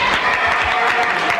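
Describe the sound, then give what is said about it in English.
An audience applauds at a live show, a dense and steady wash of clapping lasting about a second and a half without pause. “now, why are you applauding a Pullman car?”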